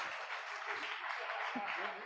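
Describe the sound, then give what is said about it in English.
Audience applause: a fairly faint, continuous wash of clapping that holds steady for the full two seconds without breaks. “big round of applause for Conrad”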